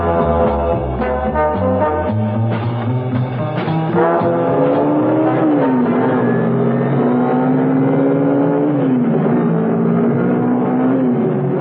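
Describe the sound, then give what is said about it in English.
Car engine speeding along an empty open road, a loud, continuous revving drone whose pitch shifts and dips at a couple of points, like gear changes, with no voices. “Out on the open road, Mrs. Peel was able to put on some speed. There was no traffic about, luckily, and the car responded like a rocket.”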